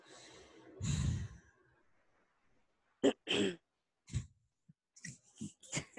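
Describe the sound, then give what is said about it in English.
A woman clears her throat: one rough, guttural rasp, then after a pause a series of short, snorting throat bursts and breaths, with no talk. “sorry y'all, I was clearing my throat”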